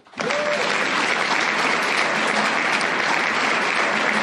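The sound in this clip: Audience applause thanking a speaker at a meeting, loud, dense and steady clapping that starts abruptly and carries on evenly for about four seconds.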